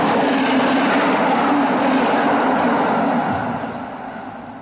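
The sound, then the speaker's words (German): A train running on rails gives a steady, broad rumbling roar with no voices, holding level for about three seconds and then fading gradually toward the end. “Die Bahn fährt immer.”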